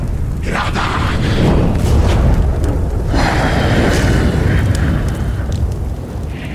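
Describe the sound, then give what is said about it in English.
A roaring, rumbling fire sound effect for a fire elemental in combat, a loud continuous blaze of crackling bursts and deep booms that surge and swell throughout. “Even a fire elemental in combat.”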